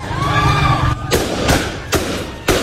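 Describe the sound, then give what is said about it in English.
Live gunfire used by Taliban forces to break up a protest in Herat: four sharp bangs crack out roughly half a second apart over loud, continuous crowd noise and shouting. “Live fire is used to disperse the crowd.”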